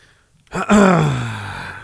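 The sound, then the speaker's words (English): A person gives a loud, voiced gasp: a brief breathy intake, then a drawn-out vocal tone that slides steadily downward in pitch and slowly fades. “They gasped.”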